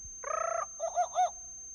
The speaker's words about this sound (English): You will know it is time to turn the page when you hear the jungle bird call like this.